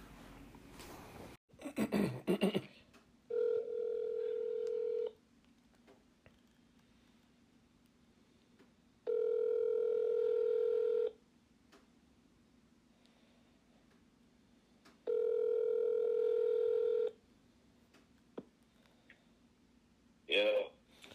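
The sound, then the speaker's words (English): A telephone dials a number and rings: a brief burst of clicks comes first, then three long ringback tones of about two seconds each, steady and mid-pitched, separated by longer quiet gaps. “So let me go right ahead and dial the first number here.”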